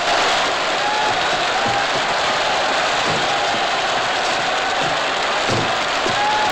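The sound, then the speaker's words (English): Audience applause at the end of an opera, a dense, steady roar of many hands clapping that holds at full strength throughout, with no speech over it. “Harry, Latham, and the whole audience burst into applause”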